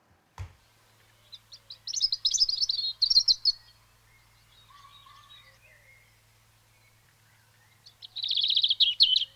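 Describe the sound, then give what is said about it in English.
A robin sings a few bright, fluty, warbling phrases separated by pauses, with a faint steady low hum underneath. “So let's just go back to that robin again.”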